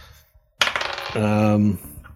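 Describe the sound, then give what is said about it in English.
Dice rolled during a tabletop role-playing game: a sudden rattling clatter of tumbling hits that settles over about a second, with a brief low humming tone partway through. “First roll is a 14. And the second roll is a 10.”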